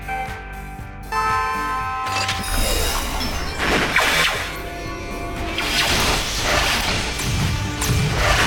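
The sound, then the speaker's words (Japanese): Crashing, smashing impacts ring out as launched targets are shattered by magic in a speed shooting contest. Several loud crashes and thuds follow one another over a dense, continuous background. “最初の種目はスピードシューティング。打ち出された標的を魔法で破壊し、その数を競います。”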